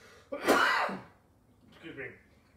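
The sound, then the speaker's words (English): A person coughs or clears their throat during a spoken talk on salvation: first a loud, rough burst, then a softer, shorter second one after a brief pause. “Excuse me, I'm just trying to get the cough out of my system.”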